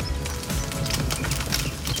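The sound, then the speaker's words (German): Sausages sizzling on a grill give a steady, dense hiss threaded with fine crackles, unbroken across the short stretch, with no voices. “Das wäre schon mal das Grillwürstel. So könnte es heute Abend klingen.”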